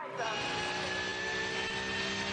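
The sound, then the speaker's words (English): A Mercedes-AMG race car's 6.2-litre V8 engine gives a loud, steady roaring drone with a sustained whine, holding constant throughout. “Sport, normally associated with the Aston Martin brand, but moving across to Mercedes AMG, Mikel Grenier taking out that 6.2 litre V8 machine.”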